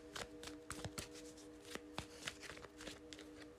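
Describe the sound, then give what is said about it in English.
A tarot deck is being shuffled, with many quick, irregular papery snaps and riffles. The sound is quiet and sits over a faint steady hum. “I am shuffling the Modern Witches Tarot.”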